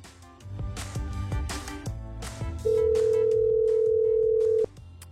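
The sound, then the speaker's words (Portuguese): A telephone dial tone sounds as a call is being placed: a steady, loud held tone lasting about two seconds, set over ongoing background music that continues after the tone stops. “Vamos ligar pra você que tá ouvindo a gente. Vamos lá. Esteja atento ao seu telefone.”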